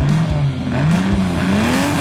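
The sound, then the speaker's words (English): Race car engines roar at a side-by-side racing event in Prince George, a loud, continuous, droning engine note whose pitch dips briefly and then climbs steadily, with no voices. “Feel the engines rumble, smell the burning rubber, and take in the pulse-pounding action of side-by-side racing.”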